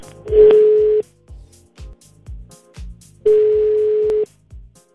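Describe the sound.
Telephone ringing as a call is placed: two steady, even-pitched ring tones about three seconds apart, with soft rhythmic low thumps underneath.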